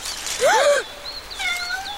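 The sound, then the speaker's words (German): A cat meows twice as it sits on a log over a forest stream: first a short call that arches up and down in pitch, then a longer, steadier and slightly quieter meow. No talking. “Nur eine Katze. Mann, hat die mich erschreckt.”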